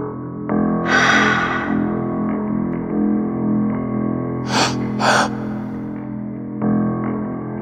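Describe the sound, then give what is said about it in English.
A long breath out is followed by two quick, sharp breaths in, taken backstage just before stepping out to perform, over a steady droning musical tone. “A long exhale and 2 quick breaths in.”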